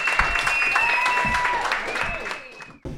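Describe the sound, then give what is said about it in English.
Applause and cheering from a comedy show audience welcoming a comedian, steady clapping with sustained whoops and voices on top, which thins out and cuts off abruptly near the end. “You guys ready for the next comedian of the night? She is hilarious. She performs all over the place. Put your hands together for Casey Balsham.”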